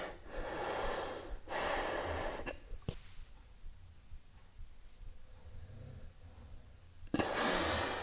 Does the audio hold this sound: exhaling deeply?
yes